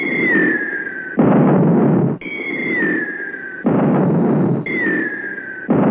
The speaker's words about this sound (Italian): ho inaspettatamente percepito una serie di esplosioni.